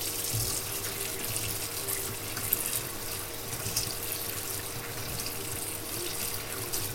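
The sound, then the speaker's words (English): Tap water runs steadily into a sink as a measuring spoon is rinsed out during cooking, an even, fairly quiet rushing stream with no talking. “Oh, that's the measuring spoon. I'm gonna rinse this out.”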